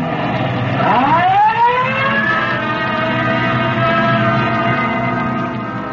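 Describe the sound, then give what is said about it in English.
A police car siren, running with red light for an emergency call, winds upward in pitch and then holds a loud, steady wail over a continuous low rumble. “Code 3, red light and siren.”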